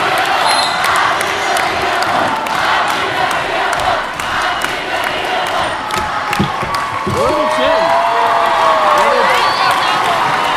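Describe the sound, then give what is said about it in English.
At a high school basketball game between Lakewood and Olmsted Falls, a crowd cheers loudly and without pause, with ball bounces and a commentator speaking over the roar. “Place got loud in a hurry again”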